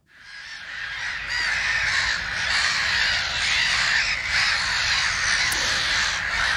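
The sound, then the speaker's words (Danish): Black-headed gulls calling: many harsh, overlapping squawks form a continuous, fairly loud chorus with no talk over it. “Det her, det er lyden af måger, hættemåger, nærmere bestemt.”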